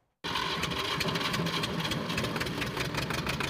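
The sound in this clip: A diesel generator runs to power a grain-sieving mill. The engine starts abruptly and settles into a loud, steady, low rumbling idle with a fine rattling texture.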